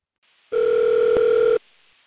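A single electronic telephone ring for a listener calling in: one steady, bright, buzzing tone holding for about a second before cutting off, with no talk.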